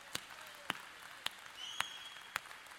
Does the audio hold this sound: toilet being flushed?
no